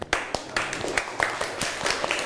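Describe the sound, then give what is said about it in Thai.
Uneven clapping from students in a classroom, cheering on classmates: a short run of many sharp claps in an irregular rhythm, moderately loud, with no talk over them. “เดี๋ยวเราปรบมือให้กำลังใจเพื่อนหน่อยค่ะ”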